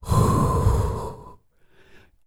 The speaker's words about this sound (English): Now, the second miracle is exhale.